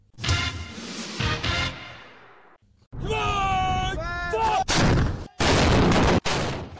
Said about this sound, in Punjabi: ਇਹ ਸਨ ਚੀਨ ਦੇ ਸਿਪਾਹੀ ਜੋ ਲਾਈਵ ਫਾਇਰ ਡ੍ਰਿਲਸ ਚਲਾ ਰਹੇ ਸਨ।